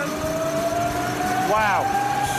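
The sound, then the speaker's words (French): A large flywheel fitted with a brake disc and caliper spins on a dynamometer, giving a steady mid-pitched whine that creeps slightly upward, broken near the end by a short, bright squeal as the caliper bites. “On a un énorme volant d'inertie avec un disque et un étrier. Exact. On peut le voir tourner? Regarde la vitesse.”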